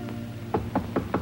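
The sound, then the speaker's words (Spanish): Knocking on a door: four fairly quiet, evenly spaced knocks in quick succession after a short silence. “Martins llama a la puerta.”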